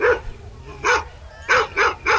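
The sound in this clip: A large dog at a souk barks five times in mid pitch: one bark, a pause, a second bark, then three quick barks close together. Each bark is loud and clear over a quiet background.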